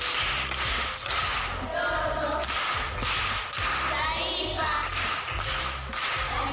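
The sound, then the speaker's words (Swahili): Rhythmic applause from a primary school audience for a pupil who answered a Swahili idiom question, loud and steady with a repeating beat throughout. “Makofi kwa Rumbe.”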